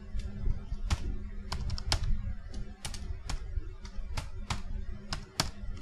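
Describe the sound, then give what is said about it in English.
Typing on a computer keyboard with the shift key held down to enter text in all caps: many quick, irregular clicks of varying loudness over a low, steady background rumble. “I don't know why, but I typed that all in caps, and not even like the quick way. I held down the shift key the whole time.”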